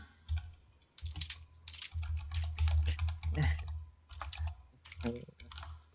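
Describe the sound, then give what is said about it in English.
Fingers type on a computer keyboard in rapid, uneven bursts of key clacks with short pauses between them. The typing is fairly quiet, and no one speaks. “You would type it like that.”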